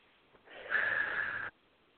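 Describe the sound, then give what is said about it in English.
A single deep breath, drawn in through the nose and let out through the mouth, heard as one soft, airy rush of about a second with no talk around it. “a big breath in through your nose and out through your mouth”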